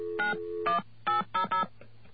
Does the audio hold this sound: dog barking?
no